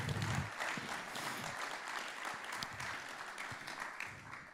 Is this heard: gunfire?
no